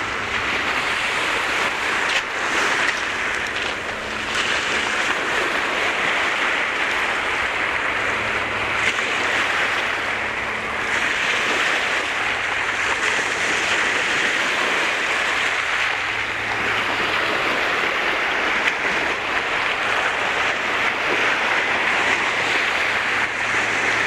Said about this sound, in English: The sand here is really smooth. You can see where the tides come in.